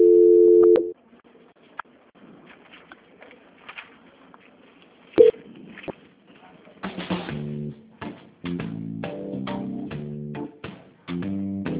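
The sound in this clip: Telephone tones during a call transfer: a steady tone cuts off into near silence with faint clicks, then a run of short dialing beeps in alternating paired pitches.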